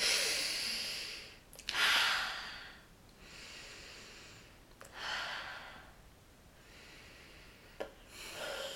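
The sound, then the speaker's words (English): Slow, deep breaths taken in a paced rhythm, with several airy, breathy surges separated by quieter pauses and small clicks, and no talk. “Okay. Deep breaths. Three breaths. Let's go.”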